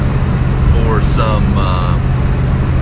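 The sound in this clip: Car interior noise while driving to Fergus Falls: a steady, loud, low engine and road rumble that fills the whole stretch, with a person talking over it.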